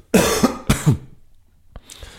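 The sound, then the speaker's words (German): Throat clearing from one person: a few short, harsh, raspy bursts in quick succession, followed by a brief click and a faint breathy sound. “Ja, ich habe es von einer sehr schlauen Person gelernt, dass Räuspern etwas vom Schlechtesten ist, was für die Stimme,”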